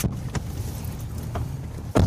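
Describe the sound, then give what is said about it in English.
Vehicle driving on a dirt road through a vast field in eastern Ukraine, a steady low rumble with a few brief rattling knocks and a louder bump near the end. “We're driving on a dirt road deep into a vast field that's somewhere in eastern Ukraine.”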